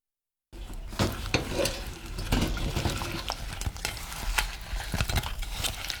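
Stirring fried sweet potato pieces in sugar syrup in a pot: a steady sizzling bubble broken by many soft scraping and tapping strokes of the utensil, with no talking.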